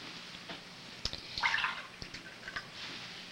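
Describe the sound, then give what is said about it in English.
Milk poured into a small glass gives a brief, bright gurgling splash in the middle, set among a few light clicks and taps, faint overall. “She goes to the table and pours him a small glass of milk.”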